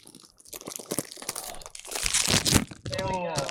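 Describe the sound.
Crunching and crinkling of a bag of Combos snacks: many dense, crackly bursts of rustling packaging and crunching, growing louder, with a voice speaking briefly at the end.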